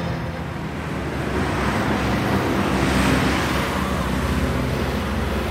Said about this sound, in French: C'est du son, un véhicule qui passe, on est dans une rue,